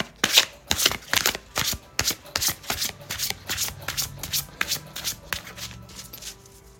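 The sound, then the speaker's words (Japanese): Japanese Yaoyorozu no Kamisama oracle cards being shuffled by hand: many quick, crisp riffling slaps in a steady rhythm, heard alone without talk. “今日も日本の神仏カード、お正前タロットカード、八百万の神様カードでね、引いていきたいと思います。”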